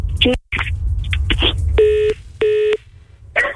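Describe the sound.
Telephone keypad dialing tones: two clear, steady beeps of equal pitch and length, each about a third of a second and evenly spaced. Brief voice-like sounds come before them.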